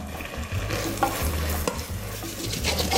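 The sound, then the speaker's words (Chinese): Tomatoes in a pan of turmeric-scented food being stirred and braised: a gentle, continuous sizzle under a few rhythmic scraping strokes of the spoon, with no voices. “番茄 加进去，好，下去焖煮，焖煮一下。”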